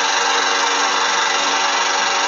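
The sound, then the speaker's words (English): A lawn mower mowing a lawn outside, a loud, steady engine drone that holds one pitch for about two seconds, with no voices. “it's a Friday when we're doing this, and of course it's time to mow the lawn. So, you know, suddenly we're talking and out of nowhere,”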